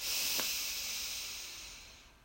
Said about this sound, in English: So breathe in and out. Ah. Breathe in.